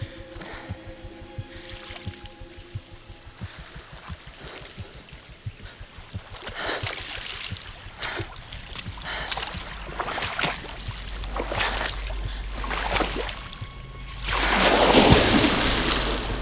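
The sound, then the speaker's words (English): Someone swimming in the sea: steady watery sloshing and lapping, building to a louder burst of splashing near the end. “What is she doing? I don't know. A morning swim?”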